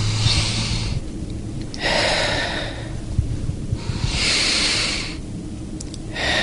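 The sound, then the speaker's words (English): Deep breaths of a patient during a lung exam before a final chemotherapy treatment: several long, hissing breaths in a slow, even rhythm, with no talking. “Big breath.”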